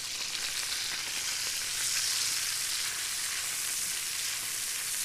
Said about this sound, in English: we're going to give our bacon a little bit of a stir.